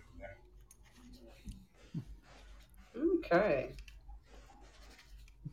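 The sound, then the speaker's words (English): A pen scribbles on paper, a faint scratchy rustle of handwriting heard under people talking. “I can hear a pen scribbling, so she's writing it down.”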